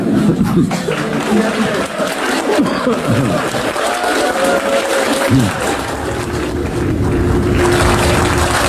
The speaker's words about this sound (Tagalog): Prohibited to clap in the Senate during a session. So, but it's all right. You're exempted.